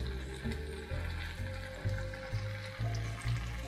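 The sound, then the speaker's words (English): A pot of liquid on medium heat is stirred continuously as a teaspoon of vanilla goes in. Steady sizzling bubbling runs under regularly repeating swishes of the spoon. “now I'm gonna put in my teaspoon of vanilla, so kind of bubble, just a pinch, but not too crazy.”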